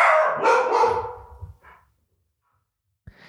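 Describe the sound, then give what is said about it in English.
Dogs barking at other dogs out on the street on a Sunday evening: a quick burst of several loud barks that taper off into quieter yips, then silence and one brief final sound. “So at the moment right now, that's what you're hearing is our dogs barking at other dogs that”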